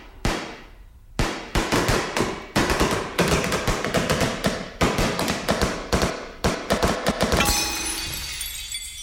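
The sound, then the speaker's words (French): Tap dancing in a tap class: many loud, sharp percussive clicks and clacks come in quick irregular flurries with brief gaps, and the final stretch dissolves into a rough noisy shuffle. “Ok, eh bien mon vieux, vous êtes viré du cours de claquette.”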